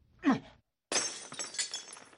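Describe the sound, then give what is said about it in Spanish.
Window glass of an old house shatters after a brief pause: a sharp crash followed by scattered tinkling fragments that keep falling for over a second. “Bueno, creo que rompí la ventana.”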